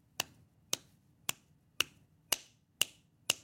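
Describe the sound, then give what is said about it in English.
Seven sharp taps or snaps form a slow, evenly spaced beat, each crisp and short with a brief ringing tail, faint and alone. “So if you listen to a beat that sounds like this,”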